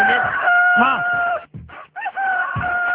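A chicken crows at two o'clock: a loud, strained crow mixed with clucks, a short break, then a second crow.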